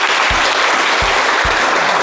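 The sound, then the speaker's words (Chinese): An audience applauds to welcome a legal expert at a Civil Code legal-education event held with factory workers. The clapping is loud, dense and continuous, with a few low thumps. “今天我们也请到了我们的法律专家，大家掌声欢迎。”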